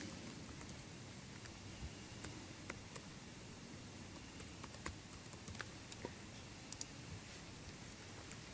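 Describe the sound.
Computer keyboard typing while logging in as an admin: faint, scattered key clicks over a steady background hiss, coming in uneven bursts with no voices.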